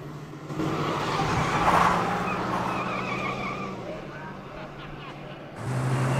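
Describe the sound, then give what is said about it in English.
A car speeds off and hurtles along a road at night, its engine a steady, loud roar mixed with broad tyre and road noise, swelling around the second second and again at the end. “The car hurtles along.”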